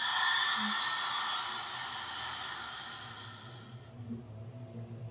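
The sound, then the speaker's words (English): A long, breathy open-mouth exhale taken during a guided breathing exercise: a steady airy rush that slowly fades over about four seconds, then near silence. “Just take a deep breath in. Open mouth, exhale.”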